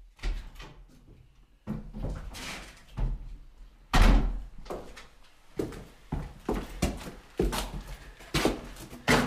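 A door is opened and closed amid many hard thumps, knocks and rattles of wood and latch. The bangs arrive in irregular bursts with short quiet gaps between them.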